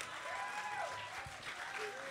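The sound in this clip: Fairly faint, steady clapping from an audience during a live tabletop role-playing game, after a dice roll comes up one. The clapping continues evenly throughout, with voices talking over it.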